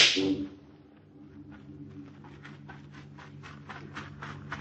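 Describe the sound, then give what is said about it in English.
One sharp, loud gunshot cracks at the very start, fired to get someone's attention, then gives way to a faint, steady run of soft rhythmic taps. “Did you not hear me shoot off a gun to call your attention?”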